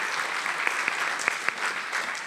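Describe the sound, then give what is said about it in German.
Audience applause is a steady, dense wash of clapping at moderate level, with a few sharper individual claps standing out. “Ihr wisst schon, dass dieser Applaus allen gilt, die daran mitarbeiten.”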